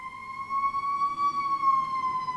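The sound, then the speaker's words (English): A fire truck siren passes close outside, a loud, steady electronic wail whose pitch rises slightly and eases back down, sounding alone without talk. “That's a fire engine, a fire truck.”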